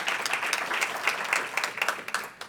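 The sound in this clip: A live audience claps and cheers as the Massachusetts State Senate President is welcomed on stage, a dense, steady patter of many hands that thins slightly toward the end.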